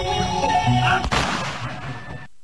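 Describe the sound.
A single loud gunshot at a military camp in Ratchaburi, during a rifle-drill display, cracks sharply and decays into a rumbling tail over a sustained tonal background.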